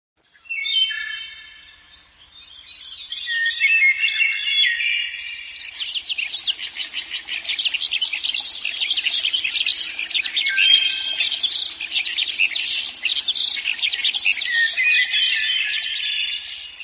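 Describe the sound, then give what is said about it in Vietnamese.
Chinese hwamei birdsong played from a cassette player at dawn in a forest. Bright, varied high whistled phrases and rapid trills run on steadily, loud and alone, with no talk. “âm thanh líu lo của chim họa mi và âm tước từ máy cassette được phát ra dụ khị.”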